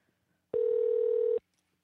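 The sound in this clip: A telephone tone sounds as a call is placed back: one steady, mid-pitched electronic beep lasting under a second, clear and alone against near silence.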